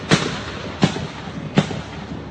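Gunshots as police officers fire back at a suspect: three sharp, evenly spaced cracks over a steady rushing background noise.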